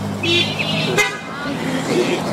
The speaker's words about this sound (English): If you're out in a car, give me a beep.